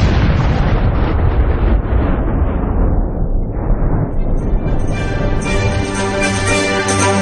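Massive dramatized explosion as a planet, its sun and the whole solar system are destroyed: a loud, continuous roaring rumble that slowly loses its brightness, then gives way to a ringing, tonal tail near the end.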